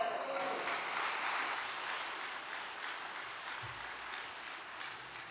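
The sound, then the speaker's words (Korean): A church audience applauds after a sermon, a faint, steady patter of many hands clapping that eases slightly toward the end. “은혜의 말씀을 주신 이기성 전시 원장님께 다시 한번 감사의 박수 부탁드립니다.”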